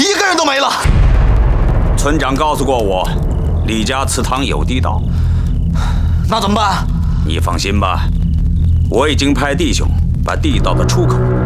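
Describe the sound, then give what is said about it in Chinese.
A hand grenade explodes in a war drama with one heavy blast at the very start. Voices then shout and talk over a continuous low rumble. “扔手雷！”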